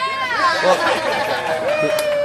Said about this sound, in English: Well, cheers from the more than modest crowd that was there